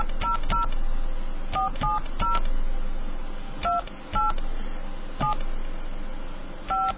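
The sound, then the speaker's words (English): Telephone keypad touch-tones dialing into an automated customer care phone line: a series of short, sharp dual-tone beeps in irregular bursts over a steady background hiss. “please dial the number that you are calling.”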